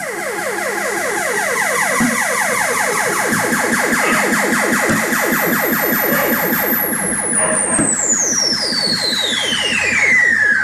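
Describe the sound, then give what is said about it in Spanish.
Analog electronic tones in the style of 1960s science-fiction films: a fast, regular pulse of rising chirps repeats throughout. Late on, a high whistling tone joins in and glides steadily downward. “Este es el típico sonido de las pelis de ciencia ficción de los 60. Para el oído no entrenado en la música electrónica, me suena muy parecido una cosa y otra. Pero esto es claramente analógico”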